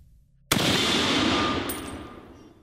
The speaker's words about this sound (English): aimed his sawed off true. When the scuttling stopped, he blasted at the ceiling.